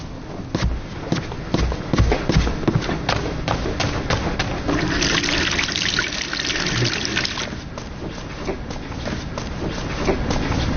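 Tap water running while someone washes their hands, a continuous trickling flow mixed with many knocks and thumps.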